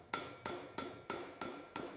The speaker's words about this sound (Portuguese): É preciso ainda aparar pontas soltas, uns toques de martelo